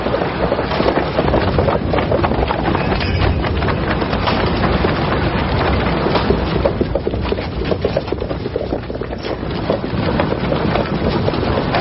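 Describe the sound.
Wood splintering and cracking as troops break apart a bridge: a dense, loud, unbroken stream of cracks and crunches over a rushing noise, with no voices.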